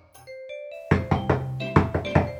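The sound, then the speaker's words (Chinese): Urgent, rapid knocking on an inn room door: a run of several sharp, loud raps with short, uneven gaps between them. “突然传来了急促的敲门声”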